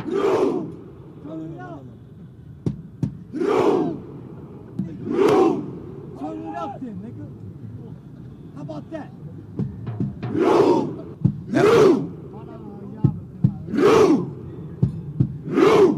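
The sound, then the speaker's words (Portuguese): Norwegian football fans perform their Viking rowing chant in Times Square, a large crowd bellowing together in short, powerful bursts spaced a few seconds apart. Sharp claps fall between the shouts, all over a steady crowd murmur. “Os torcedores da Noruega estão em plena Times Square, vários, milhares de torcedores simulando uma remada. É uma característica da torcida norueguesa, eles fazem isso nos estádios”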